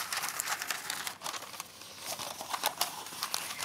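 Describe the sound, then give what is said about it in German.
Baking paper crinkles and rustles as a sheet is halved and folded. Quiet, continuous papery rustling is punctuated by many short, sharp crackles, with no voices. “Also ich habe ganz normal ein Backpapier genommen. Ja. Und das halbiert.”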